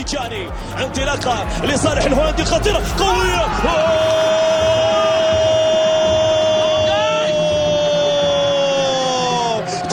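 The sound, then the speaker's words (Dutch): Football crowd cheering a goal for a Saudi Arabian club: a dense, loud roar of whoops and shouting voices, joined partway through by a steady sustained tone that holds to the end. “Dat klonk zo toen Reinders scoorde, het Instagram-kanaal van de club.”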